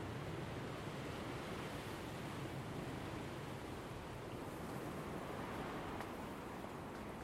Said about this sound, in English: that wind is getting strength.